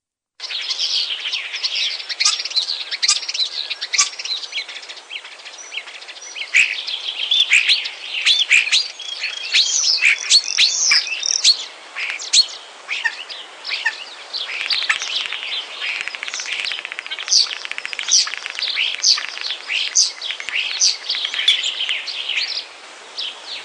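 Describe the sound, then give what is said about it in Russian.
Starlings sing in spring, a dense, continuous mix of high chirps, whistles and trills that keeps up without pause throughout. “слушать весенние звуки. Скворцы.”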